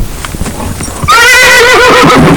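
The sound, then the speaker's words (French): A horse neighs in a loud, wavering whinny that begins about a second in and holds to the end, over a steady noisy background with a few soft thuds before it. “on entendit hennir le cheval Pie.”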